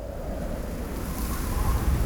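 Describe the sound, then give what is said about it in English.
Wind blowing outside a window makes a low, steady rushing whoosh that swells slightly toward the end. It sounds alone, with no voices. “It's just the wind.”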